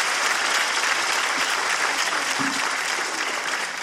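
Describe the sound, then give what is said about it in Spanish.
Dense, steady audience applause for a guest, loud and continuous from start to end, with many overlapping claps and no clear voices above it. “Un fuerte aplauso para el Chibol.”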